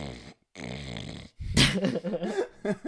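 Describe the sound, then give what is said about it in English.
A snoring sound effect represents a person asleep: two long, droning, rasping inhales give way to a louder, harsher stretch of snorting and rattling breath, with no talk. “I in fact do not snore, but Keith had to put that audio cue in there so you would understand what he was doing. I was asleep.”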